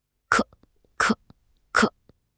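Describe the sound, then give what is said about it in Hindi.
A father has a violent coughing fit: three sharp, harsh coughs come at an even rhythm. Each is a short, loud burst with brief quiet gaps between. “Shamli के पापा को तेज खांसी उठी, इतनी तेज कि उनका पूरा शरीर हिलने लगा।”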